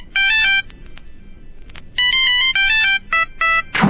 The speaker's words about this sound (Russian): Иногда в ночи звонит черный-черный телефон, и кто-то осмеливается ответить на звонок, умирает.